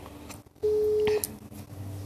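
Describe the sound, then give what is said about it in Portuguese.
A telephone call being dialed gives a single steady electronic tone lasting about half a second over low background hiss, with brief clicks around it. “Vamos tentar aqui a nossa ligação.”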